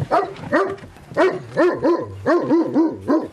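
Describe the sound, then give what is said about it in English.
A fierce-looking dog of an intimidating breed barks in a rapid run of many short, voiced barks and yips, each bending up and down in pitch, loud and steady with brief gaps. “This guy's a beauty. He's a fierce-looking dog.”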